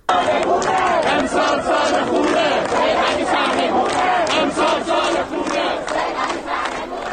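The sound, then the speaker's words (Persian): Students at a protest at Amirkabir University chant slogans together, a loud crowd of raised voices shouting in unison with a driving, repeated rhythm that holds for the whole stretch. “ما صدای دانشجویان دانشگاه امیرکبیر رو می‌شنویم.”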